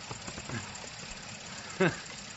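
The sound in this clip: A car engine idles with a low, steady rumble and faint rhythmic knocking. It stays fairly quiet throughout, and a short voice-like burst cuts in near the end.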